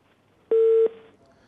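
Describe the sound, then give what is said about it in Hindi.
A single steady telephone line tone after a dropped call: one mid-pitched electronic beep with a buzzy edge, lasting about a third of a second, sounding alone on an otherwise quiet line. “ये call जो है वो drop हो गए।”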